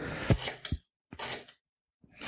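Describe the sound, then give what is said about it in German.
A knife cuts into an onion in a few crisp, crunchy bursts of cutting separated by short silences. “ich schneide jetzt hier gerade eine Zwiebel ein”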